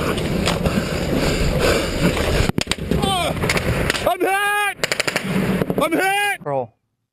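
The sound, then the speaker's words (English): Rapid automatic gunfire rings out as a soldier is ambushed by the Taliban. Loud, cracking bursts of shots come in quick succession, with shouting voices over the later bursts before the sound cuts off abruptly. “Case in point, how Graham Plattner reacted after seeing video of a soldier being ambushed by the Taliban.”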